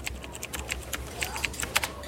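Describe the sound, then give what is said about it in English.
Light typing on a computer keyboard by children using a computer in a classroom: a quick, uneven run of soft clicks, faint and close together, with no talking. “Ooh, type it in.”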